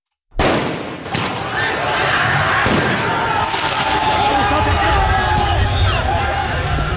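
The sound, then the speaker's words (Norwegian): Chaotic street noise from football riots in France after Paris Saint-Germain won the Champions League: a loud, continuous roar of crowd noise and shouting voices, broken by a few sharp bangs like firecrackers or shots. “Dette lyden av omfattende fotballbråk i Frankrike i går kveld og i natt. Etter at de franske mestrene Paris Saint-Germain vant mesterligaen i fotball for menn, kom feiringa ut av kontroll flere steder.”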